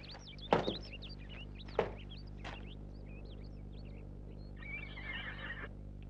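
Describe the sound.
A horse whinnies in high, wavering squeals, with two sharp knocks early on and a short noisy burst toward the end.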